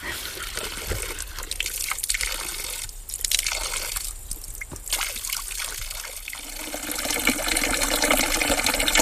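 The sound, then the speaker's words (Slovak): Water trickles and runs steadily at a cold drinking-water spring kept for drinking only, not washing, a continuous broad splashing hiss that grows slightly louder toward the end. “Tak teraz sa nachádzame pri Brunovi číslo 1, to je ten prvý prameň, ktorý je veľmi vážený, pretože pri ňom sa človek nemôže umývať, ale iba sa napiť”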